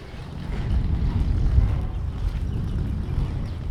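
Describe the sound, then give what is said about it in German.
Wind blows outdoors in Ulm, making a steady low rumbling roar that buffets the microphone. It swells slightly midway, then eases a little, with no voices heard. “So, jetzt windet es wieder ein bisschen stärker.”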